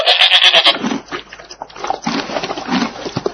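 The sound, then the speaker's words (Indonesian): A goat lets out one loud, nasal, wavering bleat right at the start. Quieter, mixed sounds follow it. “Ini kambing. Kambing.”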